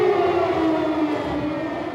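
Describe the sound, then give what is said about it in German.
Sirens sound in a loud, sustained, droning wail that stays fairly steady throughout, heard on its own. “Und mitten hinein in dieses Lied kamen plötzlich die Sirenen.”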